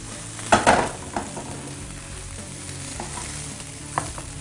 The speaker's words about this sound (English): You can dip it. You bread it. Just make sure you get that oil in there.